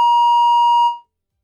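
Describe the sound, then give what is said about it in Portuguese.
A single steady electronic beep marks a telephone call dropping during a radio interview. The clean, mid-pitched tone holds for just under a second and then cuts off, with no voices heard. “Opa, perdemos a ligação!”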